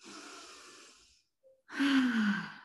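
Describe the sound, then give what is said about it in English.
A deep breath: two long, soft breathy rushes of air separated by a short pause, the second slightly louder with a faint low voiced tone in it. “Okay, now take a deep breath.”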